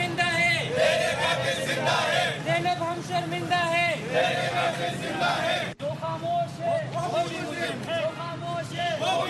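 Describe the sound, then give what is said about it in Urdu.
Protesters and Peshawar University students chant slogans at a demonstration outside the Peshawar Press Club, many voices shouting together in rhythmic, repeated phrases, loud and continuous apart from a brief break near the middle. “مظاہرہ کرنے والے افراد اور طلبہ نے اس واقعے کے خلاف نعرے لگائے۔”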